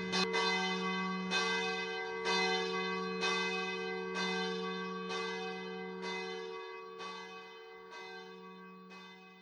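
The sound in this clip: A church bell tolls at an even pace of roughly one strike per second, about ten strikes in all. Each stroke carries long, ringing overtones over a sustained low hum, and the ringing slowly grows fainter.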